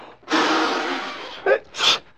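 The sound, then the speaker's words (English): A human sneeze: a drawn-out, noisy breathy build-up gives way to two short, sharp bursts of air, loud and alone with no talking. “I said Gesundheit. Oh. What for? I didn't sneeze. Well, someone did.”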